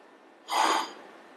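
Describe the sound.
A single short whoosh of air leaking out during mouth-to-mouth-and-nose rescue breathing on a child, a breathy burst lasting about half a second that stands out clearly above a quiet background.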